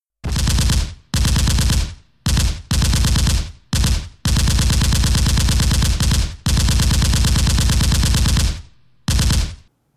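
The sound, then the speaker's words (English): A machine gun sound effect blasts out in several loud bursts of rapid gunfire, some short and some sustained for a couple of seconds, broken by brief pauses. “Even though it's not rapid fire, let's do the gratuitous machine gun sound effect.”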